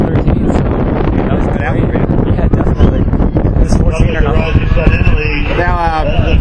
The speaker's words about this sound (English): The runners have been complaining about the wind. I mean, it had to be brutal for you guys. You're getting almost like a crosswind here.